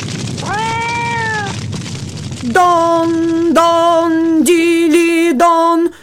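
A cat meows loudly on its own: one short meow comes first, followed by a long, drawn-out wavering cry that breaks into several strained segments.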